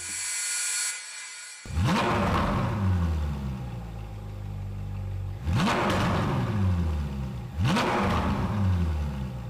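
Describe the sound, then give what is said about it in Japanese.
A Ferrari 458 Spider with a 4.5-liter V8 revs three times, each a sharp, loud blip that climbs quickly and then winds down in falling pitch to a rumbling idle between bursts. “フェラーリ458スパイダーリトラクタブル式のハードトップが極上の爽快感を生み出すスーパースポーツカ”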